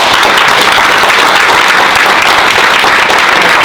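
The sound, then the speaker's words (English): Loud, dense applause from an in-person marketing event audience in Las Vegas, a steady wash of many hands clapping at once without pause, filling the whole stretch with no talk over it. “Give a round of applause real quick.”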